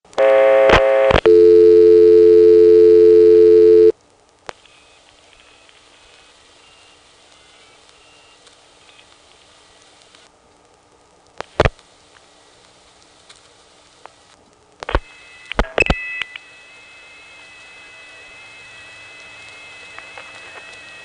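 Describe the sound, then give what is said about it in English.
Telephone line sounds from a call dialed through the Occoquan central office and routed to the Arlington tandem reorder. A loud steady dual tone opens, then quiet line hiss with scattered clicks, a cluster of clicks, and a faint high tone. “let's, before we go, dial 493 from the Occoquan Central Office one more time.”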